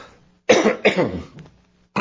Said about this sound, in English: That's not those one of those coughs you need to be worried about.